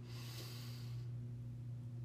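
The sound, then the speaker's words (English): A deep inhalation through the nose, taken during a guided breathing exercise: an airy, rushing intake that is strongest in its first half, then thins to a softer breath. “Let's take another deep breath in together.”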